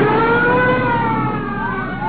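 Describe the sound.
Police car sirens wail continuously and loudly during a chase, their steady tones gliding slowly in pitch over a low vehicle rumble.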